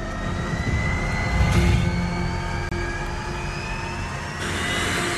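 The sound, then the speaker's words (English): A jet-powered dragster engine builds up before an attempt at 300 miles per hour, a loud, continuous roaring whine with thin high tones climbing slowly as the turbine spools. “One brave man is inside this jet-powered dragster. That noise is the engine building up for his attempt to break 300 miles per hour.”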